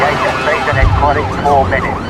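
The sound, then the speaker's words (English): Sirens of a police car and a van speeding around a corner, loud and continuous, with several wavering siren tones sweeping up and down over a rumbling engine. “Now, a police car and van speed around a corner.”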